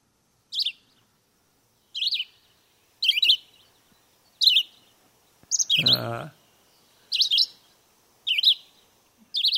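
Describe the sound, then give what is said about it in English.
Red-eyed vireo song: eight short, high, chirped phrases separated by brief pauses, with a low rumbling noise under one phrase midway through. “we hear red-eyed vireo there. Let's hear that again”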